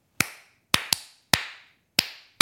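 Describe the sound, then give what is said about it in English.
Hands clap out a rhythm: six sharp, dry claps in an uneven pattern, including one quick pair, with short silences between them and no voices. “But when you clap a rhythm,”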